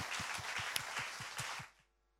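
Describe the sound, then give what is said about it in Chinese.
A church audience claps together in a steady, quick rhythm in praise of Jesus Christ, the unison claps evenly spaced and fairly soft before the clapping stops abruptly near the end. “我们给掌声我们主耶稣基督。”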